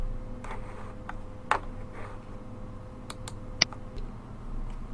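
Two sharp computer mouse clicks, separated by a pause of about two seconds, over a quiet steady hum while someone works in Blackboard's Tests, Surveys, and Pools area.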